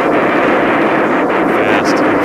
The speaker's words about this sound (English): With all four rockets firing, Jaeger climbs to 56,000 feet in less than 2 minutes.